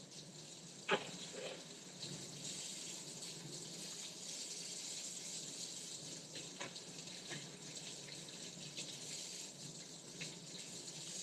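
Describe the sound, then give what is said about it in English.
Running tap water pours steadily while green onions are washed under it, a soft continuous rush with a few faint knocks and clatters. “Gotta wash them first. Don't forget the importance of washing your vegetables.”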